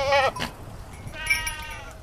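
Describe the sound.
Goats from a herd in Portugal bleat twice: a short, loud, quavering cry, then a longer, higher, wavering bleat after a pause, with faint background noise between them.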